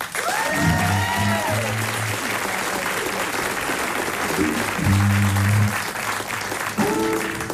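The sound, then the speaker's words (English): Audience applause welcoming the Havana Horns onstage at a live concert, steady sustained clapping throughout, with a few short musical notes rising over it. “So would you please make welcome the Havana Horns?”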